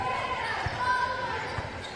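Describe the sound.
A basketball dribbled on a court during a high school game with Wilson Central makes two low thuds about a second apart, under crowd noise and commentary.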